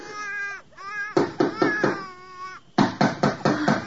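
A distressed infant cries with high, wavering wails, then shifts into choppy, rhythmic bursts of sobbing, loud and insistent throughout.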